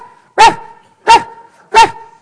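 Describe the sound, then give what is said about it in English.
A pet dog barks three times in an even, steady rhythm. Each bark is loud, short and sharp, with quiet gaps between. “just keeps bugging me. Shut up already. Crazy dog.”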